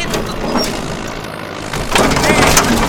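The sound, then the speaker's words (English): A bulldozer crushes a limousine with a continuous, loud, rough grinding and crunching noise that surges louder toward the end. “Hey, what's that idiot doing? He's gonna hit my limo. Shit, that's Robert Mugabe. In a bulldozer?”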